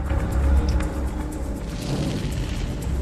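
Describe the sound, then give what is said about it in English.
A deep, rumbling boom as a bridge explodes in a ball of flame and plummets into an abyss, holding as a sustained low roar throughout, with no voices heard. “Behind him, the bridge explodes in a ball of flame and plummets down into the abyss.”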